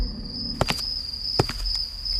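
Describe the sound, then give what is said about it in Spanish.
Footsteps sound at night as a few soft, irregular taps. They sit beneath a steady, high-pitched chirring of crickets that runs through the whole clip. “Se escuchan unos pasos en la noche.”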